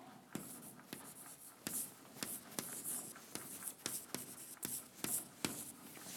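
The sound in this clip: Writing on a board during a maths lecture: many faint scratchy strokes and small taps in an irregular rhythm, heard alone without talk.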